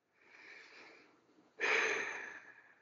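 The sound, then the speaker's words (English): A slow, deep breath during a relaxation exercise: a soft inhale lasting about a second, then a louder, breathy exhale that gradually fades, with no talk. “let's take a nice deep breath, release it whenever you feel ready. I'm going to do exactly the same.”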